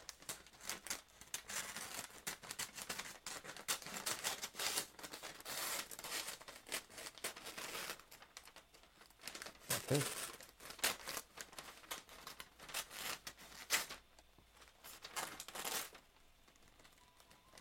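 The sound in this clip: Scissors cut through Christmas gift wrapping paper in a long continuous pass, with steady crisp rustling and crinkling that keeps fairly loud and dense before thinning near the end.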